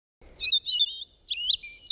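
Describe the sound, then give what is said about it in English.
A bird chirps in a few quick bursts of high, bright tweets, each burst made of rapid warbling notes separated by short pauses, clear against a quiet background. “The bird says its name is Peep.”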